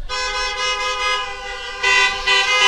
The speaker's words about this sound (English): I thought there'd be a couple more honks on that, but I noticed that the honks are coming from the ladies that are behind the wheels.